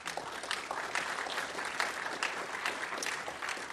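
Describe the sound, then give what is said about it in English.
An audience at a Commonwealth Club event welcomes panel speakers with warm, steady applause that keeps an even, continuous texture throughout. “So please give them a warm Commonwealth Club welcome.”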